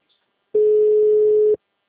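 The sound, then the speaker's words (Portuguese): A single steady, mid-pitched electronic phone tone lasting about one second after a call drops over an unstable internet connection, heard alone without talk. “nossa ligação caiu, que nós tivemos uma instabilidade no sistema aqui da internet.”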